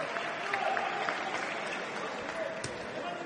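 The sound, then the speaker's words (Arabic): Japanese fans in the stands at a sports match applaud a Kuwaiti player, a fairly faint, steady spatter of many hands clapping at an even level. “تحية جميلة من الجماهير اليابانية لمحمد علي غضنفر.”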